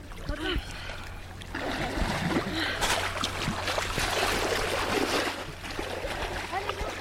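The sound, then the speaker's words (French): Splashing water from people swimming in a cold lake in winter at Lake Annecy: steady, dense sloshing and splatter throughout, with indistinct voices mixed in. “On l'entend, vous avez pris votre courage à deux mains pour essayer cette baignade hivernale.”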